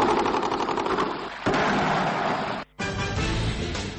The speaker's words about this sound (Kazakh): Түркменстандын астанасы Ашхабадта узак убакыт бою түрлү каруудун атысы эстилип турду.